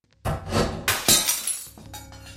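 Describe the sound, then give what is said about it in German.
A picture falls and its glass shatters. A sudden crash after a brief quiet, then further loud bursts of breaking glass with bright tinkling that trails off into faint rattling. “Man hörte einen Schnappen, so als sei eine Arretierung gelöst worden, und das Zerschellen von Glas.”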